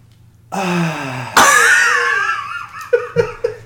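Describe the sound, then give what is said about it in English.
A person imitates a deep breath of relief with a long, voiced sigh, broken midway by a sharp gasp and ending in a few short, breathy, laugh-like puffs. “Here, I'm going to try and reenact the breath that he takes afterwards.”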